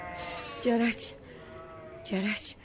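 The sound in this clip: Lambs in a flock bleat twice, each call a wavering, nasal cry separated by a pause of more than a second, set over a quiet background.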